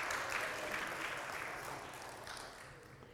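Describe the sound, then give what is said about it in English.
Applause from a church audience welcoming a member back during a service: dense, steady clapping that carries through without a break and eases off slightly toward the end. “Let's give him a hand for being back with us.”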